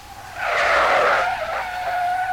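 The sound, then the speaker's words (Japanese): Tires screech as a heavy car brakes hard to a stop, a loud, sustained high-pitched squeal that starts sharply and holds for about two seconds with no voices. “キーッと甲高い音が聞こえ、一台の車が目の前に止まった。”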